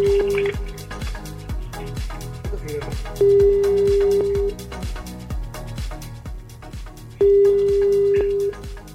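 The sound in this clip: An unanswered phone call gives out its ringback tone: a steady, single-pitched beep that recurs about every four seconds, with a cluttered patter of rapid clicks and taps running underneath.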